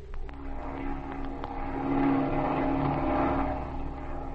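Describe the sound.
Droning airplane engine sound effect as the aircraft circles, a steady low hum with a buzzing overtone that swells slightly mid-clip and then holds.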